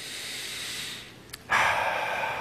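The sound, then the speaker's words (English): A deep breath taken together by a group during a church service, a soft airy intake that fades to near silence before a sudden, louder rush of breath that holds to the end. “as we get into this teaching, let us take a deep breath together.”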